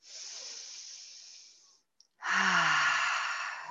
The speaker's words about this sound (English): Exhale, take another deep breath in. Exhale, and one more.